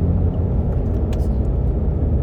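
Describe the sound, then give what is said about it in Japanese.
A car drives at night, giving a steady, continuous low rumble of engine and road noise with no talk. “なので今もね、車でこうやって夜走ってるとすごくね気持ちいいし、”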